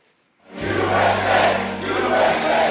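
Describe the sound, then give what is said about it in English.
Crowd cheering at a political rally for a former president in New Hampshire, after his caucus win in Iowa. The cheering starts suddenly after a short quiet moment, then holds as a loud, steady roar of many voices that swells and dips slightly. “Voters cheered along with former President Donald Trump after his 30-point victory in Iowa's caucuses during his first big rally back in New Hampshire”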